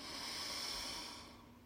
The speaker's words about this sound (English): breathe in through our nose. And exhale. We're going to do that again. In through the nose.